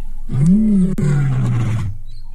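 A lion on a live-streamed safari gives a single deep, loud roar lasting under two seconds, heard alone.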